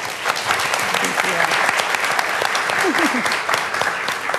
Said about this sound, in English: Please give a warm welcome to Stephanie O'Neill.